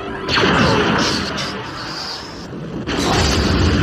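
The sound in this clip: An explosion sound effect: a heavy crashing blast that rumbles on for a couple of seconds, then a second loud crashing burst near the end.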